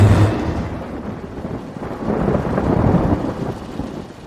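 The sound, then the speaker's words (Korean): Thunder rolls over the sea during a pouring rainstorm as a typhoon approaches. A deep, continuous rumble rides over a steady hiss of rain, swelling slightly midway and staying loud throughout. “해수면 위로 번개가 번쩍이더니 곧이어 천둥이 내리쳤다. 어, 천둥 번개가 무섭구나.”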